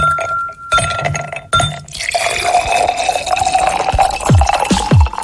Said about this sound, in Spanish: Escuchar cómo servimos un Mr. T en un vaso lleno de hielos no te refresca.